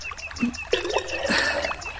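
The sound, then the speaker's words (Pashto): Water trickles and pours into a jug in a steady, gurgling stream. “دا دې منګی ډکوم”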